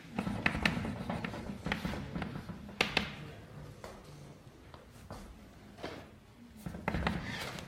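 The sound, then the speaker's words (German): Chalk or marker writing on a board during a German mathematics lecture: faint, irregular taps and short scraping strokes, with brief pauses between bursts. “Jetzt schreibe ich die Vereinigung der TKs.”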